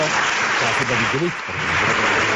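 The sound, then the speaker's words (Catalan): Applause from members of parliament in the chamber, a dense, steady wash of clapping with a voice briefly audible over it midway. “Aplaudiments a la sala per part de... Almenys el que es veu tots els diputats de tots els partits polítics.”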